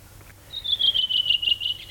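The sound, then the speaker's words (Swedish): A redwing sings one energetic, rapid, high-pitched trilled phrase that drifts slightly downward in pitch and fades into quieter chirps, alone over a faint low hum. “så sitter den där en rövingetrast och sjunger energiskt, frenetiskt. Sjunger och sjunger och sjunger.”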